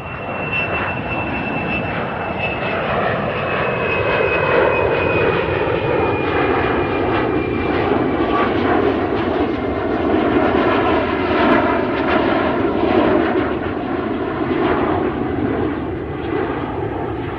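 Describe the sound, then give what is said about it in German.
An aircraft flies overhead with a loud, sustained jet roar lasting over fifteen seconds, its dense rumble carrying a thin high whine that slowly falls in pitch through the first half. “Haben Sie gemerkt, dass dieser Überflug etwas weniger laut war?”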